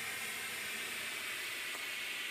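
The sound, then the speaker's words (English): A steam locomotive's boiler safety valve lifts at about 110 pounds per square inch, releasing a steady, rushing hiss of escaping steam that continues without a break throughout. “So that safety is lifting at about 110 pounds per square inch. If we keep making more and more steam, now it's sounding quite angry.”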